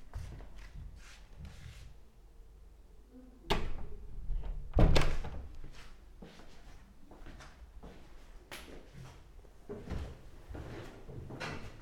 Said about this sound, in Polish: Teraz wyjdę, zamknę drzwi.